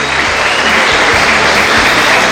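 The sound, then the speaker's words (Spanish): Loud, dense applause from a church audience: a continuous wash of many hands clapping at a steady level, with no voices standing out. “¿Qué tal si les damos otra vez otro aplauso?”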